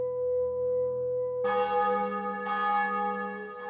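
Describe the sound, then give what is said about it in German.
Church bells ring on a Sunday morning, sustained overlapping tones with a few fresh strikes renewing the peal, steady and fairly loud with no voices. “An einem Sonntagsmorgen, als die Glocken verklangen und unversehens die wohlige Stille dieser Stunde eintrat”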